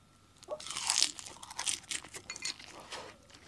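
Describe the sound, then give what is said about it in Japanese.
Crisp crunching as dried nori seaweed is bitten and chewed, with a few sharp, crackly bites early on and then lighter, scattered crackles, fairly faint and heard alone. “千田さんのおのりに戻っていきますこっちの方がパリパリ度が高いのかな”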